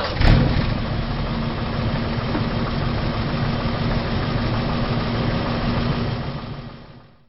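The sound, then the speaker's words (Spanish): An old Studebaker car engine roars at night in a loud, steady, rumbling drone that holds evenly and then fades out at the end. “El motor de un viejo Studebaker bramó en la noche.”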